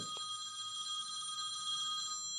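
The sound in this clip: Telephone ringing with a continuous, steady electronic trill of high stacked tones, fairly faint, over a soft low murmur.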